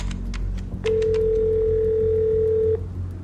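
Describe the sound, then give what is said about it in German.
Outgoing telephone call ringing: after a few faint clicks, a single steady ringback tone sounds for about two seconds and then cuts off, leaving quiet background. “Ich glaube, wir sollten diesen Fontana anrufen. Ich habe mir die Nummer über einen alten Kontakt besorgt.”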